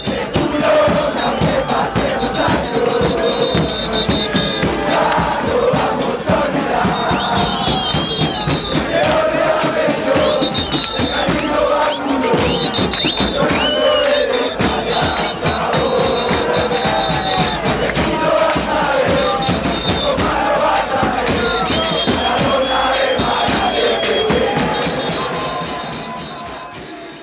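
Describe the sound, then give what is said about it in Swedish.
Football supporters sing long chants about Diego Maradona, a massed chorus of voices keeping up a continuous, melodic song with loud, steady energy that fades away near the end. “Och det är mycket sång om Diego förstås, Maradona. Också att han är bättre än Pelé. Hör den här också.”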